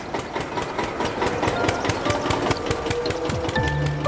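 Vehicle engine running while driving through a museum, a loud steady chugging made of rapid regular pulses with a rattling mechanical edge, continuous from start to finish with no talk.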